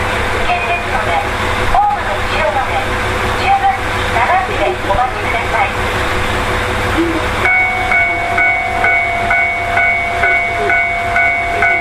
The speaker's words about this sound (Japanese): 爆音とともに通過するスーパー大空1号の、はい、音を取ってきますので